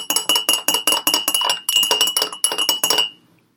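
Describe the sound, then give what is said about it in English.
A spoon clinks against a glass while stirring sugar into coffee, a rapid, steady run of many bright, ringing taps lasting about three seconds before it stops. “Okay, coffee's in. Now I'm just going to give it a stir until all that sugar dissolves.”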